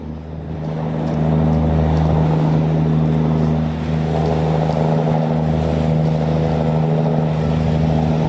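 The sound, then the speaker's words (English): A tugboat pushing a huge barge loaded with containers up a river in Paris gives a loud, steady diesel drone with a deep humming tone, swelling in the first second and then holding level throughout. “That's the sound of a tugboat pushing a huge barge load of containers up the river in Paris.”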